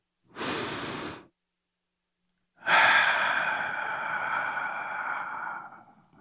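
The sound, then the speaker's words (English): A person draws one deep, audible breath in, pauses briefly, then lets out a long, breathy sigh that fades slowly. “Now, if you're ready, let's take that deep breath.”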